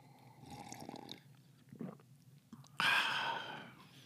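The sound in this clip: A slurping sip of medium roast coffee, brewed a little weak, comes as a sudden breathy burst after a few soft mouth and breathing sounds, then holds steady until the end.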